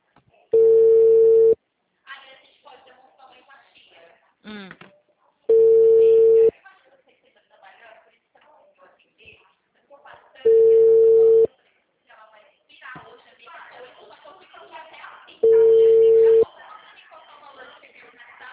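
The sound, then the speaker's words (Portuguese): Ringback tone of an outgoing phone call that goes unanswered: four identical steady tone bursts at even intervals, with a person talking quietly in the gaps between rings. “Sim, tá chamando, chamando e ela não atende.”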